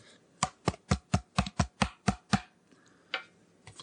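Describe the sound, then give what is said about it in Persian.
Crisp snapping and tapping of thick, gold-foil-stamped role cards from a party card game being handled, a quick, even run of sharp card snaps followed, after a short pause, by one more. “هشتا کارت نقش داریم که این صداشون بود”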